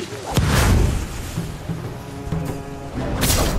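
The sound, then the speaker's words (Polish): A firecracker explodes in a video game with a loud, booming burst near the start. A second burst comes at the end, with quieter rumbling game noise between them. “Czekajcie, petarda.”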